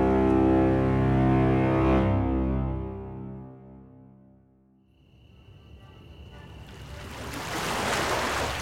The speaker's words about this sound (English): We sail with the tide. I was back where all my adventures took me. Back to the harbor. Back to the ships bound for somewhere,